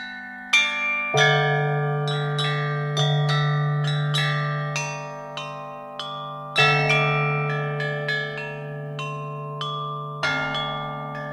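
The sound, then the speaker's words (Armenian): Deep, resonant peal of a huge bell cast in 2000 at a Chinese cement plant and rung to mark the new millennium. Many strikes sound at a slow, uneven pace, each leaving long sustained humming tones that overlap. “Հաջողության զանգը ձուլել են 2000 թվականին չինական Թիանրուի ընկերության ցեմենտի գործարանում։ Հսկայի հնչեղ ղողանջով են չինացիները նշանավորել մուտքը 3-րդ հազարամյակ։”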